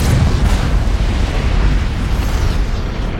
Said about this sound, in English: As the planet explodes.